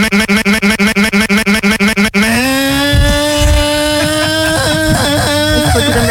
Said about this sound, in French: J'aime beaucoup les motos. T'aimes bien les motos? Alors attends, je la démarre, je mets le nitro là. Attends, je démarre.